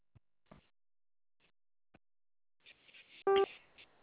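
A single brief telephone keypad tone sounds from pressing zero on a phone line, a short steady beep that follows a few faint clicks and a wash of low line noise.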